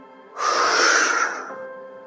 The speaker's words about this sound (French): Quand vous sentez le besoin d'inspirer, alors, faites-le. Inspirez profondément à plein poumon.